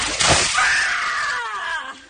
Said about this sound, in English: That's just a blast of scream.